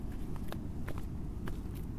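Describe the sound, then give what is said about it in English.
Footsteps walk quickly across a sandy beach on a windy night outing, a few soft, gritty crunches that stand out faintly over a steady, low, wind-filled rumble. “The volunteers start walking faster, but stay very quiet.”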